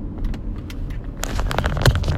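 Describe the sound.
Car interior while driving, with a steady low engine and road rumble under light clicks and rattles that grow busier toward the end.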